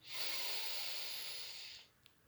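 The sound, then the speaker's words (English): A full inhalation through both nostrils during a guided breathing exercise: one long, steady, hissing intake of air lasting almost two seconds, fairly loud and even, then it stops and near-silence follows. “Take a full inhalation through both nostrils.”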